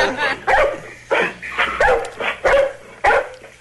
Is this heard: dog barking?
yes